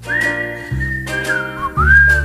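Human whistling a melody along to a recorded song, the clear whistled notes sliding and bending in pitch over a low musical accompaniment, loud and up front.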